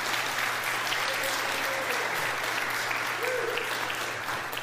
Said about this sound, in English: I just want to give them a little round of applause